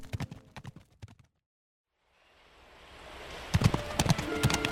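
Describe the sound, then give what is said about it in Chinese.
Hooves of a galloping white horse clip-clopping in quick, sharp bursts that stop briefly, then a swelling rushing noise with loud hoofbeats returning. “王子趁日出之前赶紧离开这座高塔，骑着白马奔腾回王宫。”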